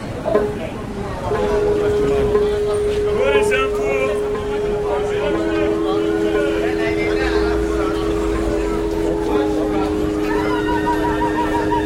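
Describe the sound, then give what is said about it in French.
Street ambience on Brick Lane in London: a steady mix of traffic and urban hum with sustained tones and a babble of voices throughout. “Aujourd'hui, troisième épisode, on est à Brick Lane.”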